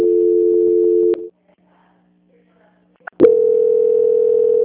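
A telephone tone plays while a call is being transferred: a steady, loud, low hum that cuts off abruptly, leaving about two seconds of near silence with faint clicks, then resumes at a similar pitch.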